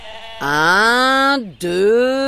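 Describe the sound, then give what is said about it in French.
Sheep bleat twice, loud and close together. The first bleat is long and wavering, with its pitch drifting upward before dropping away. A shorter, equally loud bleat follows after a brief break. “Chaque jour, le berger mène ses moutons sur la montagne.”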